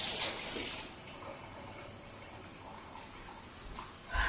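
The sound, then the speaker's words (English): Tap water running into a kitchen sink as lemongrass is rinsed under it, a steady soft hiss of flowing water throughout, quiet and without talk. “So I am going to go back here to my sink and just rinse it real quick.”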